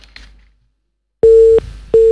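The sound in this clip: A telephone busy tone sounds after a call-in line to a dangdut music radio station disconnects: a near-silent pause, then two loud, steady, mid-pitched beeps with a short gap between them, the second cut off at the end.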